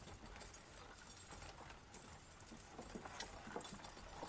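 Horse hooves clip-clop as a rider arrives in a farming town: faint, steady hoofbeats patter throughout with no talk.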